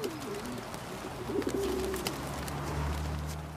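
Pigeons cooing, a few soft, low, throaty coos rising out of a faint background hiss, with one clearer call near the middle.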